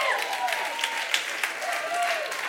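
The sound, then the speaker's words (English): Steady audience applause for a couple's 50th wedding anniversary, a dense, even patter of many hands with a voice speaking over it. “But you don't even know why you're clapping yet.”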